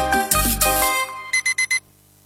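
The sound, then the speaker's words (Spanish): An alarm clock rings in four short, evenly spaced bursts of bright, bell-like tone, following a louder, fuller opening burst of sound. “Me sonó el despertador, me volvió la realidad.”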